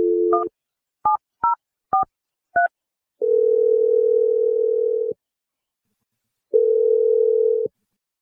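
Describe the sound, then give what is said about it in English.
Touch-tone telephone dialing: a quick run of short beeping key tones, then two long, steady ringing tones separated by a pause as an outgoing call rings through. “All right, so I'm going to dial Marie's number.”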